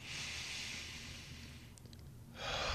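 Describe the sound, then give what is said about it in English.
Slow, deep breathing during a yoga class warm-up: a soft, airy breath of about one and a half seconds, a quiet pause, then another hissing breath begins. Faint and steady. “we're going to breathe in, and then we're going to breathe out 2 seconds each”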